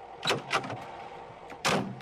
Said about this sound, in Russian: Из гаража выезжает машина Лёлика.